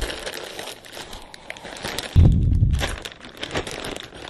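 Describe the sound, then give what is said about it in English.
Plastic bag holding CDs is handled and packed into a large shipping carton, giving one short, loud crinkling thump with a brief rustle after it. “I'm going to put all of these paraphernalia, which is the plastic bag containing the CDs”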